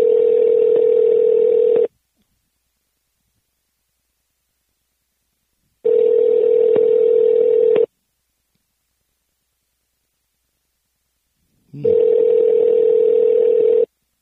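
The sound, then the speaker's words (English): Ringback tone of an outgoing telephone call ringing out unanswered: three steady, loud tones of about two seconds each, evenly spaced by roughly four seconds of silence, heard alone with no voices. “Let's see if she answers the call right now”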